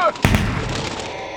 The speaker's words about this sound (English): What you just heard were the opening shots in the Vatican's annual Seraphim hunt,